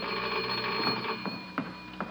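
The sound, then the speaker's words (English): A telephone rings with a steady, high, electric tone that runs unbroken through the whole moment, with a few faint knocks underneath. “There's the phone”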